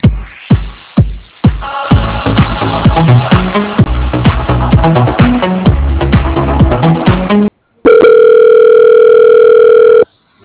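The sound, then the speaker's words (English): Telephone hold music plays over a thin, narrowband phone line, a busy rhythmic tune with a steady beat. It cuts out briefly, and a long, steady pure tone follows. “I love your guys' hold music. It's the best I think I've heard in a long time.”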